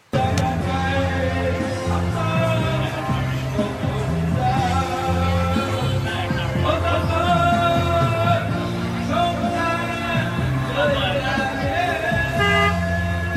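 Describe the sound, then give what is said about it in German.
Vietnamese street noise is dominated by car horns. Many overlapping toots and honks sound almost continuously at a loud, steady level over the hum of motor traffic. “sondern wirklich auf offener Straße. Du wirst da beschallt. Ihr habt ja keine Vorstellung. Und deswegen habe ich euch jetzt ein paar Soundschnipse mitgebracht. Einfach mal zurücklehnen, einfach mal genießen. Welcome to Vietnam.”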